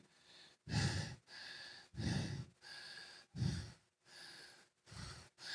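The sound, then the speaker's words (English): Heavy, rhythmic breathing of a pastor catching his breath mid-sermon: loud, breathy gasps alternate with softer breaths at a steady pace of about one every one and a half seconds, faint and with no speech. “I'm, I'm catching my breath so I can go, so I don't strip a gear because I feel more coming on.”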